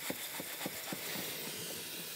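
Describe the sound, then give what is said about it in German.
Water running from a tap to fill a washbasin for soaking floral foam, a faint steady hissing rush with soft, regular pulses running through it. “Magst du mal einmal das Waschbecken ziemlich füllen?”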